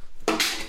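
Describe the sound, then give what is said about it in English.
A metal pickle jar lid strikes a guitar with a single sharp clang, followed by a bright, ringing tone that holds to the end. “That was the sound of a pickle jar lid hitting a guitar.”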